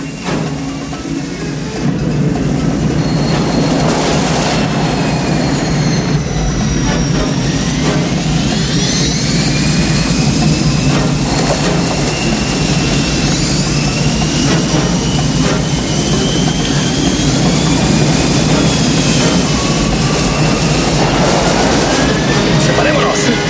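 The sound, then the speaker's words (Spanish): Small plane taxiing over rough, uneven ground in an action film chase: a loud, continuous engine roar with whining tones sliding above it, sustained throughout after a brief quieter start. “De pronto, Nick y David descubren que la avioneta, rodando por el abrupto terreno, les sigue los talones.”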